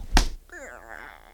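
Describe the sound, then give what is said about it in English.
A single sharp slap as one person hits another, followed by a person talking. “I'm going to hit you. I hit you!”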